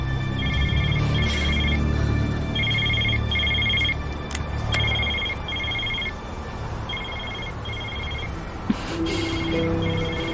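A telephone bell rings in repeated paired bursts, a high trilling double ring that recurs steadily over a low, constant background rumble.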